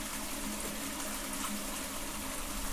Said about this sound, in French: Écoutons celle qui chante ici, c'est l'eau.